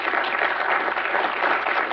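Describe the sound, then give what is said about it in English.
Audience applause at an event celebrating a film and book about Justice Thomas: a steady, close-packed rush of clapping that stays at an even level from beginning to end. “So that applause is obviously for Michael and for Mark and also for Justice Thomas and Ginny.”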